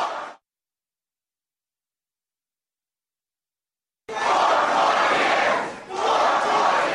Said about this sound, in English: President Barack Obama spoke to an enthusiastic audience last night at Hollywood's House of Blues.